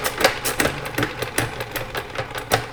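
A spinning toy whirs fast, giving a rapid, rattling mechanical buzz in many quick, uneven pulses that hold steady from start to finish with no voices.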